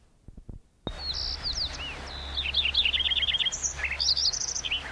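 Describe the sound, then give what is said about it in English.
White-crowned sparrow song: many high, bright chirps and short trilled phrases repeat in quick series after a faint opening rustle, carrying clearly over a low steady background hum. “white crown sparrow on there”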